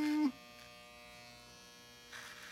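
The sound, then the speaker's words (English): Electric hair clippers buzz loudly for a moment, then cut off abruptly, leaving a faint steady electrical hum that swells slightly near the end. “Shit, those clippers suck.”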